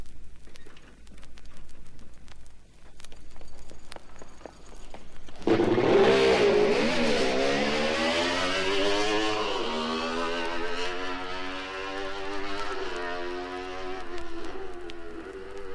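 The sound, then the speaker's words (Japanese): A Honda CR93 racing motorcycle engine revs hard on a track, bursting in loudly after quiet background noise and then howling continuously. Its pitch climbs and drops several times as it runs through the gears. “まずホンダ CR93 に乗るジュニアライダー柴田幸弘からトレーニングを始めます。”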